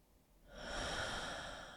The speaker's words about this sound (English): And then taking a deeper breath into what's here.